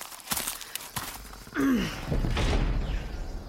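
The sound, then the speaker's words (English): Gates being opened: a short creaking groan that slides downward in pitch, then a heavy, sustained rumbling scrape that carries on to the end. “Now gather behind me, everyone. I'm going to open these gates, and then we begin our journey east.”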